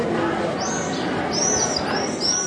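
Swifts give thin, high-pitched screaming calls at their nest in the cracks of an ancient religious-site wall about 2,000 years old. A few faint calls rise over steady background noise.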